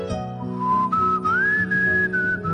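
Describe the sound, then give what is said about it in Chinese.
A person whistles a short melody, one clear, sustained tone that steps and glides upward from a middle pitch and then settles slightly lower, over a soft steady low hum. “好嘢喎，吹口哨。”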